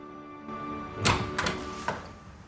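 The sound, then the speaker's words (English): A few faint knocks on a hospital room door, sharp and irregular, over a low steady hum, with no voices. “He knocks on the door of Stuart's room and holds out a bottle of gin.”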